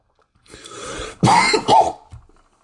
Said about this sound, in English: I know it's not very gentlemanlike to be coughing on mucus during a recording